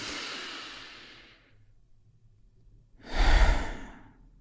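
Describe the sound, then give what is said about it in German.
A slow, deep breath: a soft airy exhale fades out over about a second and a half, then after a pause a fuller, louder breath rushes in, heard alone without talk. “Und weil es so schön ist, nehmen wir noch einen zweiten tiefen Atemzug.”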